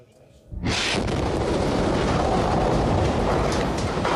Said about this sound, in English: This was the moment an Israeli strike destroyed a mosque in Gaza City.